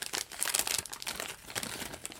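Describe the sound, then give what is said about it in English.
Crinkling and crumpling of a wrapper as a 1990 pack of baseball cards with 31- or 32-year-old gum is unwrapped, a quiet, continuous rustle with small crackles. “I thought I would at least on camera see what happens, like a science experiment, to 32 or 31-year-old gum. So I'm unwrapping this pack.”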